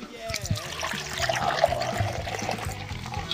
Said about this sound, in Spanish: Qué lindo el sonido cuando descorcha la botella y el glu glu glu glu cuando cae en el hielo.